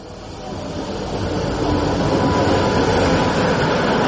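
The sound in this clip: A Talgo train on the Sarajevo–Čapljina–Sarajevo line rumbles past, a dense, steady roar of wheels and carriages that swells over the first second and a half, then holds loud and even.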